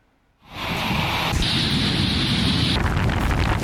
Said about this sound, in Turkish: Ay çok kötü bu rüzgar.